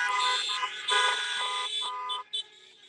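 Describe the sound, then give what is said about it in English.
Car horns blare together at a drive-in at a fair, many overlapping honks forming a loud, continuous chorus of sustained tones that dips briefly just before the end. “Honk your horns if you've watched it already.”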